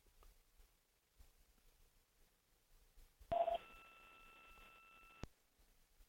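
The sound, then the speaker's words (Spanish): Telephone tones as a number is dialed: a brief cluster of beeps, then a steady electronic tone lasting about two seconds that ends in a click. The sound is faint throughout. “Vamos a ver si está. A ver. Esperen, tengan paciencia, la estamos llamando.”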